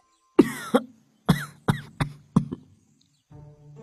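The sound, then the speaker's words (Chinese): A man coughs for a while: a run of several sharp, harsh coughs in quick bursts, loud against silence, with a low murmur near the end. “公孙咳嗽了一会儿”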